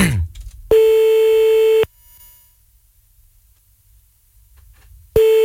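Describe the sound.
Telephone tone while calling a number back: a loud, steady mid-pitched tone holds for about a second, cuts off into a long near-silent gap, then starts again at the very end.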